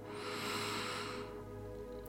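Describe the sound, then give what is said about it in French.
A slow breath drawn in through the nose, a soft airy hiss lasting about a second over a quiet, sustained musical drone that continues alone afterward. “Tu inspires par le nez”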